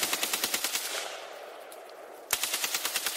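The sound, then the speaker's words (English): An AK-47 rifle fires automatic bursts: rapid, evenly spaced loud pops for about a second, a roughly one-second lull, then another quick burst of sharp cracks. “one very distinct thing about the AK-47 is the sound that it makes when it fires.”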